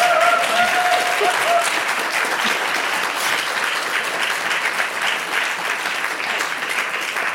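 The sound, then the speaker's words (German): An audience applauds at a stage event with an all-women panel. The clapping is dense and continuous, fairly loud at first and easing slightly toward the end. “Sie dürfen jetzt ruhig applaudieren.”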